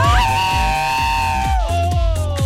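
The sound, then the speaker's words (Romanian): A large group of people shouting and cheering loudly into a microphone, one sustained collective yell that drops in pitch partway through, over a steady thumping beat. “avem o gașcă foarte mare, pregătiți să facă o mare gălăgie. Atenție la microfon, 2, 3 și...”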